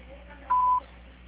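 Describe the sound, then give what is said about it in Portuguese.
A voicemail beep, heard before a message is recorded on a Portuguese-language phone line: one short, steady, mid-pitched electronic tone that lasts about a third of a second over a faint line hum. “Sua chamada está sendo encaminhada para a caixa de mensagem e para a sujeita cobrança após o sinal. Após o sinal, grave sua mensagem.”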